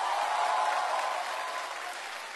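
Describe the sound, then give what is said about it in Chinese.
Applause from an audience cheering two teachers at an event: dense, steady clapping that holds evenly throughout and gradually eases slightly toward the end, with no voices. “掌声送给两位老师。”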